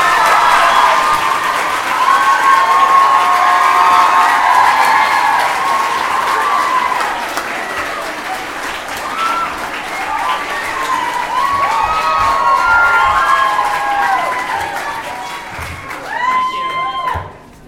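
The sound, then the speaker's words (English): Audience cheering and applauding as hosts are welcomed on stage at a live fan event: loud, sustained clapping filled with excited high-pitched shrieks and whoops, dropping off sharply at the very end. “Correct me if I'm wrong, but J.K. Rowling is in the city tonight. I believe that's what we're hearing. And cue applause.”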